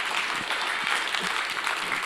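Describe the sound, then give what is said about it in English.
Steady applause from a church audience, a dense, even patter of many hands clapping throughout with no break and no distinct voices. “Let's give him a hand.”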